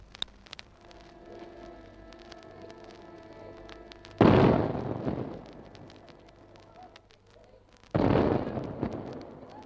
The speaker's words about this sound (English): And now, on their behalf, the army gives its solemn salute of 21 guns.